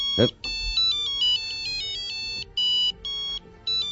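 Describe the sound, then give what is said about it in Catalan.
A mobile phone ringtone plays a bright, high electronic melody of repeated beeping notes in short phrases with brief gaps, after a short sharp sound at the very start. “Aquest és el mòbil.”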